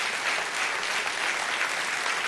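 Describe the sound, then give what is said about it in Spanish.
Steady, dense applause from a church audience during a sermon, continuous throughout with no clear breaks. “Denle un aplauso a Dios y se lo va a dar, que Él se lo merece.”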